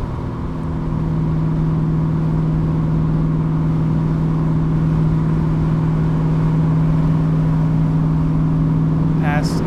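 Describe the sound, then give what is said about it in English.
Car engine and exhaust resonance while driving in a highway lane with light throttle, a loud, steady low drone that holds a nearly constant pitch throughout. “this gives you guys some idea of the resonance with this exhaust setup. Middle lane, give a little throttle, see if I can get to 2500.”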